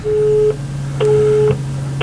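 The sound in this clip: Telephone busy tone after a radio phone-in call dropped: a steady pitched beep pulsing on and off in even half-second cycles, three pulses in all, over a constant low hum.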